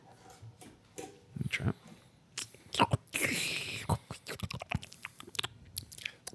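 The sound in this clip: Someone chews a bite of steak made from cockroach meat: faint, irregular wet chewing and crunching with soft mouth noises and a brief louder rustle in the middle.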